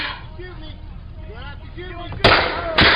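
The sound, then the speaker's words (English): Two loud, sharp gunshot bursts come close together after a stretch of voices talking under tense conditions. “Are they shooting him? Did they shoot him?”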